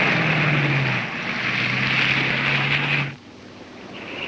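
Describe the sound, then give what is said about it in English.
A wood-paneled station wagon engine drones steadily as the car is put in gear and drives away, a continuous low hum that drops off sharply near the end. “He puts the wood-paneled station wagon in gear and drives away.”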